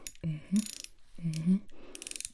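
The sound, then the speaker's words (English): Ratcheting clicks of a tool tightening a screw come in two short bursts, each with a soft low hum and a hiss before a run of rapid, even clicks. The clicks grow denser toward the end. “You have been screwed. Okay, and then we're gonna tighten that up.”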